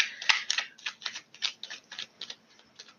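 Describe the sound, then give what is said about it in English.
Tarot cards spill from the deck during a reading and are pushed back in. A quick, uneven run of many light, crisp clicks and flicks, fairly faint, with no talk. “I cannot take all of these cards. So like 20 of them fell out. I can't take them all. I'm putting them back.”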